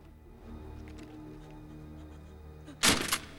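A gun being dropped: one sharp thunk near the end of a quiet stretch, followed by a smaller knock just after.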